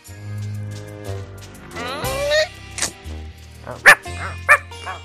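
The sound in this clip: Dog barking comes as a few sharp, high yaps near the end, each short and loud. Softer vocal sounds and whimper-like tones come before them.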